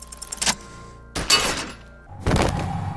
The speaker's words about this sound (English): The buckle explodes into tiny pieces, coming loose with a whir.